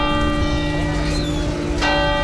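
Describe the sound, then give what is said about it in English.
Church bells ring out over a packed square during a vigil, a continuous, steady peal of overlapping sustained tones that stays loud throughout. “Bells rang out in front of a packed square.”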